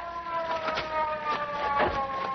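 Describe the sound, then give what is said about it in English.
A police car siren sounds as a steady, tonal wail layered with pulsing rises, moderately loud and without talk. “here comes a police car. Yeah, we'll flag it down.”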